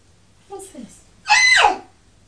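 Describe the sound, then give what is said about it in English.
A big, high-pitched squeal, loud and bright, lasting about half a second. A shorter, softer vocal sound comes just before it. “That's a big squeal.”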